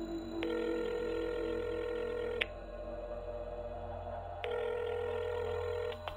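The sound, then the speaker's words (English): A telephone line gives a quiet, steady ringback tone as an outgoing call connects. There are two long rings with a pause between them and no voices. “I dialed Dave again.”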